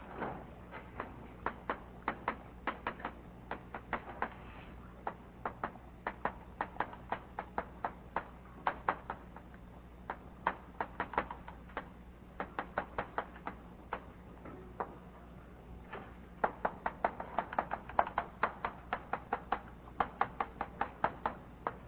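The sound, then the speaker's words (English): A lecturer writes the title of a talk, making many faint, irregular ticks and taps of the writing tool that come in quick clusters with short pauses between words. “What I'm going to talk about today, I'll just write down the title.”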